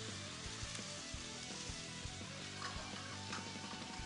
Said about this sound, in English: So a nice hot pan, some canola oil or other vegetable oil, and we're just going to start searing that.